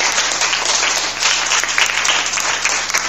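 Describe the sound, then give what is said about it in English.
An audience gives primary-school quiz contestants a round of applause, loud, dense and continuous clapping that stays steady from start to finish. “A round of applause for the”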